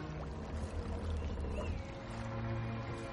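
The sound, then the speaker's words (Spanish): Water and hull sounds of Viking ships sailing on a wide river at dawn: a steady, continuous wash with a low rumble underneath, holding an even loudness throughout, with no voices. “Al amanecer, una decena de barcos vikingos navega por un amplio río.”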